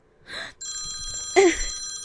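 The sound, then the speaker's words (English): A phone rings with an incoming call, a bright electronic ringtone of several layered tones repeating steadily, with brief vocal sounds before and during it. “Why is he calling me right now? Oh no. Oh, no, no, no, no, no, no, no. This cannot be happening. Shit, let me just get my phone.”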